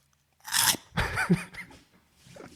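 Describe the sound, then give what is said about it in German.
Loud crunchy eating: a few sharp, crackling bites are followed by softer crunching and chewing, alone and with no talk. “Tut mir leid an alle, die uns schon mal essen gehört haben, damals den Timo und mich im Podcast und sich drüber geärgert haben.”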